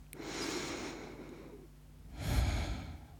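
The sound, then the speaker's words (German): A slow, deep breath: a long, soft inhale followed after a pause by a shorter, stronger exhale, faint and with no talk. “dafür atme einmal ganz tief durch”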